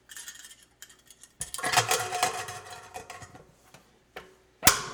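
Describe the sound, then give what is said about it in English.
Clatter and clicks as a lid is fitted onto a homebrew container of just over a gallon before CO2 carbonating, with scattered light knocks, a denser scraping rattle in the middle and a sharp snap at the end. “Okay, the lid is on.”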